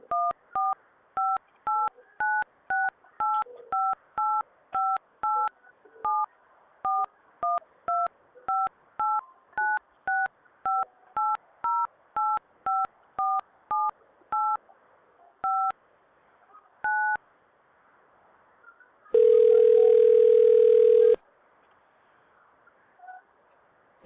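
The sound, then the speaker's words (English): Telephone keypad dialing tones as a call is placed to a dispatch center: a long, steady run of many short two-note beeps, then a single longer, louder ringback tone after a brief pause. “I'm just going to dial the North Korean dispatch center now”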